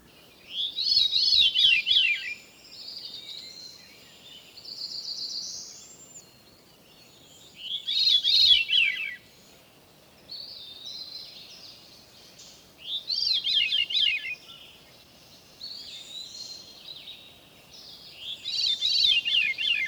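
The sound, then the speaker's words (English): A veery sings four descending, spiraling, flute-like phrases spaced several seconds apart, with softer high notes between them. “Now the descending spirals of the veery.”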